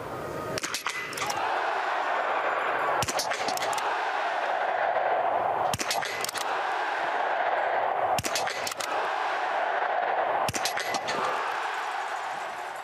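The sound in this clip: A biathlon show jingle built on a steady, noisy music bed, punctuated by five sharp gunshot cracks at even intervals about two and a half seconds apart.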